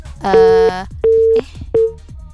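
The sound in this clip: Telephone busy tone on an unanswered call: three steady, mid-pitched beeps with even gaps, the last one cut short, over a faint low background.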